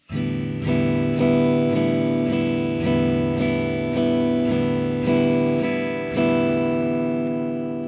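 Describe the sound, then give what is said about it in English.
Guitar chord strummed in a 4-4 count at 120 beats per minute, a steady run of bright, ringing strums at an even tempo, each chord sustaining into the next with no talking. “And the 4-4 count strum at 120 beats per minute sounds like this.”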